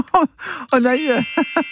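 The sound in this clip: A gong from a radio quiz rings out as a short bright strike with lingering high metallic partials, sounding over and between voices talking.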